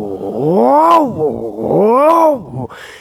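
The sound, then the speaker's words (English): A voice imitates a car engine idling roughly, caused by a faulty idle air control module, on a car fitted with a big intake and exhaust. It makes two loud, groaning swells, each rising and then falling in pitch. “it had a bad idle air control module, which meant that when it was idling, it would go like that. But it also had a big intake and an exhaust on it, so it would go”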